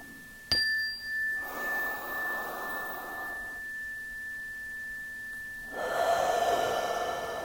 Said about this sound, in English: Inhaling in, exhaling out, and again releasing, letting go.